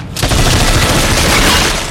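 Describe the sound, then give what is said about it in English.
A rapid burst of film gunfire as a gun is fired down to shoot a hole through ice: loud and dense, with many shots blurring together over about two seconds. “Bond looks down at the ice and he grabs the guy's gun who opens fire and they shoot a hole through the ice”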